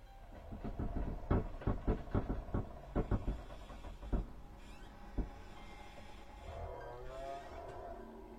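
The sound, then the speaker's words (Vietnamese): Creaking and knocking of a coffin lid being pried open with a crowbar: a rapid run of sharp wooden knocks and creaks, then a few isolated cracks and a quieter, drawn-out creak near the end. “Mấy người phu nghe thấy thầy nói vậy thì bắt đầu lấy cái xà beng để mà cậy nắp quan tài. Âm thanh cứ cót ca cót két, nghe đến giận cả người.”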